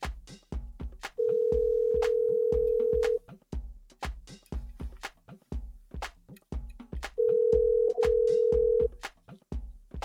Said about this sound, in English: we got a couple of other callers we're going to call in.